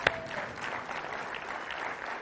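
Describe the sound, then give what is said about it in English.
Congregation clapping during a church sermon, opening with one sharp clap and then settling into a dense, even wash of many hands at moderate volume throughout. “if you're going to clap, let's just clap for Jesus today.”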